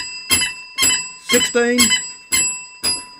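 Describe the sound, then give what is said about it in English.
A bell is rung repeatedly as donations are added during a fundraising drive. It gives six bright, ringing strikes at a steady, even pace, with a brief voice heard between them midway. “It's worship hour with a difference and more bells added. We always need more bells.”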